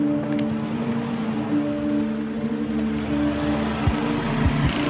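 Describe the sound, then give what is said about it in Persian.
Engine drone of a car pulling out of a company parking lot: a steady, continuous low hum with a constant pitch, with a couple of dull low thumps near the end. “مالک سوار ماشینش رو از پارکینگ شرکت میاد بیرون.”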